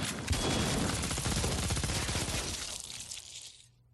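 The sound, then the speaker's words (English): A gun fires in a dense, rapid volley of many shots that merge into a continuous crackling roar, then thin out and fade away near the end. “Everyone, open fire. Do it. Yeah, do it, man. See what happens. The slow Moonanite gun.”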